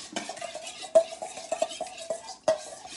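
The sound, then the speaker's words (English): A utensil stirs a mixture containing sugar in a bowl for mini pizza, making repeated scraping clinks against the sides with a few louder knocks mixed in. “I'm gonna just mix this up here.”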